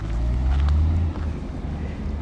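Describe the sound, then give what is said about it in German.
Timber trucks roll past the entrance gate of a brand-new wood pellet factory outside the village of Osula: a steady, heavy low engine rumble, louder at first, then easing after about a second. “Dicht an dicht wartende Holztransporter passieren die Kontrolle am Eingangstor und fahren auf das Werksgelände”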